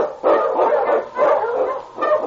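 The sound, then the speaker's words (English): Husky sled dogs bark in the Yukon snow, three rough, mid-pitched bursts spaced about a second apart. “run, you huskies!”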